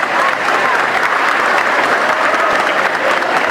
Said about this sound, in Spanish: Entonces, un fuerte aplauso para cada uno de ustedes.